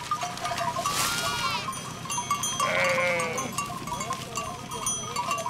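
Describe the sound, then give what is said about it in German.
A large flock of sheep tended by a shepherd, with a few wavering bleats rising from a steady, busy background of farm noise. “Wieder ein Schäfer, wieder eine große Herde.”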